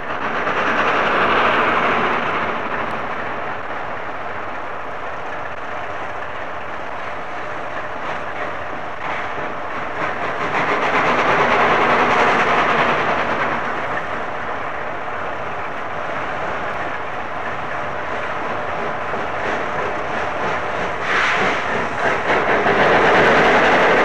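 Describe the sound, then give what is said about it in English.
A special train struggles to start on very greasy rails on a misty November morning, a continuous rushing roar that swells and eases a few times in slow surges, loud throughout with no voices. “November isn't a very good time to run special trains, and the morning in question was a very, very misty one. The rails were very, very greasy, and you can hear the difficulty she's having in starting.”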